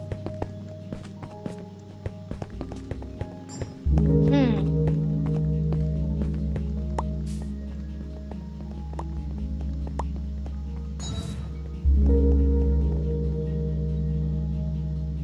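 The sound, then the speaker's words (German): Quick footsteps of a player sprinting in a Minecraft video game: a rapid, fairly even run of short taps over a steady background tone that grows louder partway through. “Oh, dieses Sprinten macht immer voll viel Spaß.”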